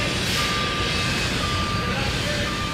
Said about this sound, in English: That's the sound of the new $20 million History Center that they were still building at the time.